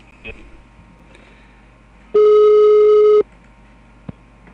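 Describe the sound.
A telephone busy signal after the other party hangs up on a call: one steady, loud, sustained tone lasting about a second, set between faint line noise and brief clicks before and after.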